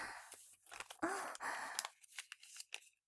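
Paper is folded by hand, giving soft crinkles and creasing rustles in a few irregular bursts, quiet and with no other sound.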